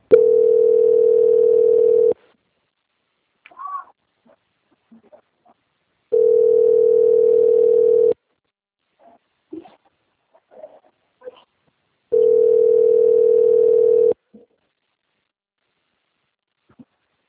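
Telephone line tone plays while a bank call-centre agent transfers a customer's call to quality control: three long, steady, mid-pitched tones of about two seconds each, separated by pauses with faint scattered noises.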